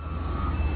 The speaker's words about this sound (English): That's the sound of heavy equipment in White Clay, Nebraska, preparing for the arrival of a Family Dollar store.